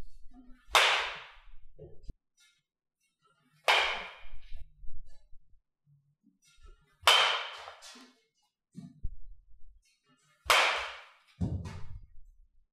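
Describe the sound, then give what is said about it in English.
Red 2021 Select Power softball bat striking a ball, four sharp, loud cracks spaced a few seconds apart, each followed by quieter thuds and rustling. “This is the Select Power. This is the red one, so the 2021 version of this bat.”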